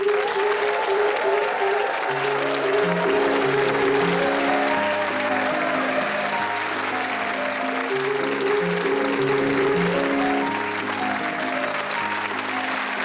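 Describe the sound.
Chopin's Minute Waltz played on piano as a panel game's theme tune, its quick, busy notes running steadily beneath loud, continuous applause from start to finish.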